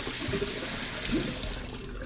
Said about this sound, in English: He hurries to the sink and leans down to drink from the faucet.